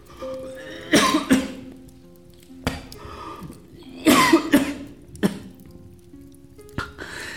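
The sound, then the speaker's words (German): A persistent, lingering cough: several harsh, chesty coughs in short bouts of one or two, separated by quiet pauses, with no talk. “Dieser Husten, er wird nicht weggehen.”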